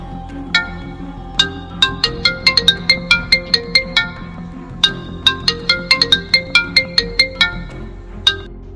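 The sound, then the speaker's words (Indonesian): A mobile phone ringtone for an incoming call plays a bright electronic melody of many quick notes in two phrases, loud and on its own. “Duh, Beta nelpon lagi. Siapa yang nelpon?”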